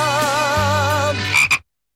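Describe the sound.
A frog croaks in a radio advertisement with a long, warbling, buzzy croak. Two short throaty croaks follow, then abrupt silence.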